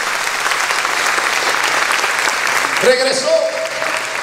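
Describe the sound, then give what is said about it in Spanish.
A church audience applauds during a service, a steady, dense wash of clapping that holds at an even loudness throughout. “Aplauso a su nombre.”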